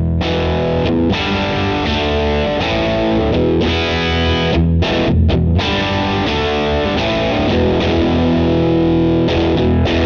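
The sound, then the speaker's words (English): A Vox AC30 guitar amp, turned fully up on its top boost channel with the bass rolled off, roars with heavily distorted electric guitar chords, loud and sustained without a break and with only brief dips between strums. “I actually didn't do any sort of sound clip with the AC30 cranked up all the way. So I've cranked it up all the way on a top boost channel, rolled the bass off”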